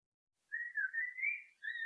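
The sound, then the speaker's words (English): Whistling attributed to a blackbird on La Gomera: a soft, clear, wavering tone held for about a second, a brief gap, then a second short whistled note, alone against silence. “And then there was this blackbird that it was doing, I think it's whistling.”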